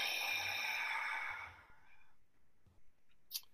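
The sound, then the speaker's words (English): A full exhale out through the mouth during a guided breathing exercise: a steady, breathy rush of air that lasts about a second and a half and then fades away, followed by near silence with a few faint clicks. “Pause and hold. Full exhale out the mouth.”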